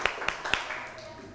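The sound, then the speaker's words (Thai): Three sharp hand claps from children, evenly spaced in quick succession and followed by a soft, steady murmur. “โอ้โหปรบมือให้เขาหน่อยค่ะ”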